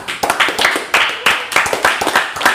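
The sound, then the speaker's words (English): A golf clap: a measured, polite series of crisp hand claps in a fairly regular rhythm, each sharp and distinct, heard clearly on its own. “You didn't clap. What's up? I was right here. Oh, okay. It was a golf clap.”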